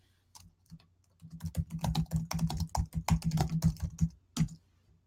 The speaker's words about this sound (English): Let me type in something here.